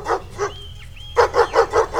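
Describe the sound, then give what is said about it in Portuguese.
A pack of dogs barks in quick, rhythmic bursts: two barks, a short gap with a thin whine, then a steady run of about five sharp, loud barks. “O Zé Maria tava brigando com a cachorrada, né?”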